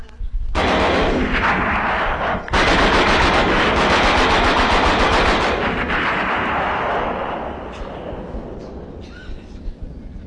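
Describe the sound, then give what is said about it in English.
Loud, continuous 20 millimeter machine gun fire at a swamp during a duck hunt. Rapid shots blur into a dense roar for about seven seconds, then thin out into a few scattered pops. “Somebody limbers up with a machine gun, 20 millimeter.”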